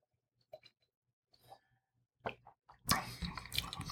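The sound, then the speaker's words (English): Wine being tasted: a few faint, small mouth clicks and sips, then a louder, breathy slurp as the wine is drawn in. “let me see if I can have another taste on its own.”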